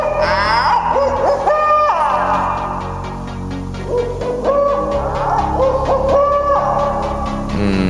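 Owl hooting, a few tonal, wavering hoots that rise and fall in pitch and stand out clearly over a steady background.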